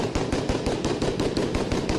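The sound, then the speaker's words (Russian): Random gunfire inside a mosque: a dense, continuous run of loud, sharp shots fired without rhythm, with no clear pause between reports. “Стрельба беспорядочная.”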